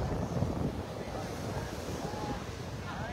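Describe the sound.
Wind and waves on a cold sea make a continuous rushing roar, with gusts buffeting the microphone. The sound stays fairly quiet and even throughout.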